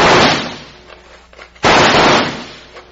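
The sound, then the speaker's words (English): Two loud gunshots fired into a rocky cave, each a sharp blast that trails off into a long fading rumble, the second following after a brief pause. “Throw a few slugs in first and let's see what happens.”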